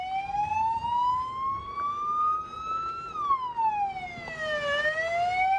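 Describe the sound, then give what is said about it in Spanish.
Siren of an emergency medical rapid-response vehicle in Madrid, a loud wailing tone that climbs slowly, drops, then starts climbing again, over faint traffic noise. “Se pone en marcha el SUMMA 112, Servicio de Urgencias Médicas de la Comunidad de Madrid, primero con un vehículo de atención rápida.”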